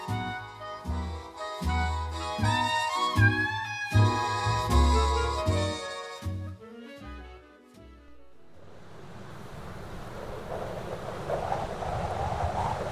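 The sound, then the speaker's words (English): After a stretch of music, wintry wind takes over as a broad, rushing roar that grows steadily louder toward the end. “Boy, that wind is sure picking up. It's almost like we're expecting some wintry weather.”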